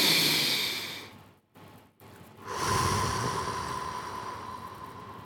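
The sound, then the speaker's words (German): A person breathes deeply close to the microphone: an airy breath in, a brief pause, then a longer, fuller breath out that fades slowly. “Einfach mal ganz kurz die Ruhe genießen und ein- und ausatmen. Wir machen das ganz kurz zusammen.”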